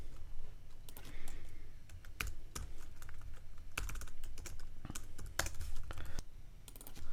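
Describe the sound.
Someone types on a computer keyboard while writing code. Quiet, irregular keystrokes click in quick runs with brief pauses between them.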